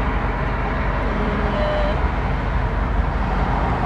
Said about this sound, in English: what's with the traffic?